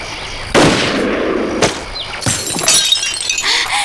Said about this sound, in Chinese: 扣扳机的时候只动食指，身体其他部位不动。准备击发。